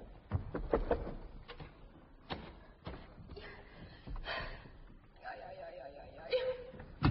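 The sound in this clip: A door is shut and locked: several sharp wooden clunks and latch clicks in irregular bursts, and a voice sounds briefly toward the end.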